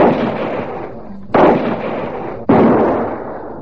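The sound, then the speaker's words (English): Rifle gunshots while hunting bulls. Loud, sharp booms each trail off in a long rumbling decay, coming at a steady pace about a second apart. “Reload and get the other two, quickly. Now you're shooting.”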